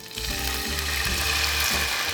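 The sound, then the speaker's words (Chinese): Loud, steady sizzling hiss as a premixed blend of white vinegar and balsamic vinegar is added to dry spices frying over low heat for a hot-and-sour chicken jelly noodle sauce, lasting about two seconds. “炒香料时记得用小火，不然干的香料很容易就会烧焦，产生苦味。当可以闻到香料的香气时，要用事先混合好的白醋和巴萨米克醋。”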